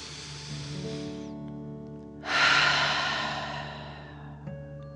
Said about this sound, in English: take another deep dragon breath. Fill up your belly in and out.